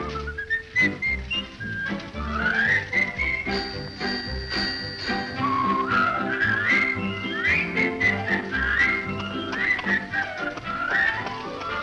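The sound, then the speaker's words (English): A cheerful tune whistled over light instrumental backing. The bright, lilting melody carries continuously with quick trills and skipping notes and never pauses. “a whistle does much more for you. So I love to whistle.”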